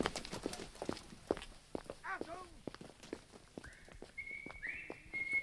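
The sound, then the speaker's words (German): Heavy footsteps stomp along a barracks corridor in many quick, hard thuds, and a high whistled tone comes in toward the end. “Welcher Vollidiot knallt da seine ungewaschenen Plattbeine über den Flur?”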